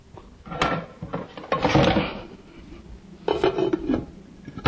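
A lid goes onto a cooking pot of stew with a series of knocks and clattering bumps, some soft and some louder, ending in a final firm clunk.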